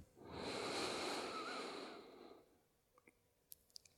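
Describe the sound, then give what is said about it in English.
A deep, slow breath drawn in through the nose during a guided meditation, one soft, airy inhale of about two seconds, followed by a few faint clicks in near silence. “So full breath in through the nose.”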